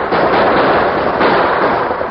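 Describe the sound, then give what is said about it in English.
A premature explosion of fuse-lit charges at a gap makes a loud, dense roar of noise that rumbles on unbroken from start to end, with no voices. “Premature explosion at the gap threw the rustlers into a panic.”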